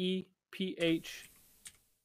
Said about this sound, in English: I cannot fucking type Sephiroth.